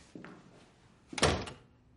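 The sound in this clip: A door closing as a man shuts himself into a child's bedroom: a faint knock first, then a solid thud with a short rattle that fades quickly, with no talk.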